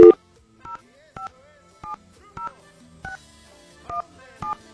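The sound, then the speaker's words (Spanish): Telephone keypad dialing tones: a run of eight short two-tone beeps spaced at slightly uneven intervals. The first beep is longer and louder than the rest. No voices. “Se me van a desgastar los dedos de tanto marcar aquí estos números telefónicos.”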